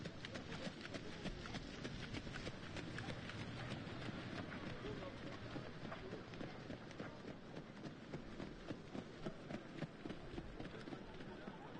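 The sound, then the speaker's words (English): Racehorses trot back and forth on a race track, making a faint, dense clip-clop of rapid hoofbeats that runs steadily through the whole stretch. “The others are just trotting backwards and forwards.”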